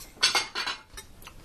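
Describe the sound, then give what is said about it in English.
Dishes and bowls clinking as soup and salad are served: a few short, bright clatters of crockery and cutlery, the early ones louder and the later taps fainter and more spaced out. “let's put this in some bowls. Yeah. Bowls and plates. Soup and salad.”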